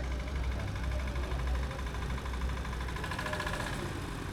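Engine of a scrap-built vehicle at a scrap metal jam, driving a lap in reverse: a loud, steady low rumble with a rough, slightly knocking texture that holds fairly even throughout.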